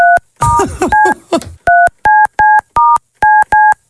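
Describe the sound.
Keypad tones sound as a telephone number is dialed to return a call: a rapid string of loud, evenly spaced, steady dual-pitch beeps, each one short and clipped.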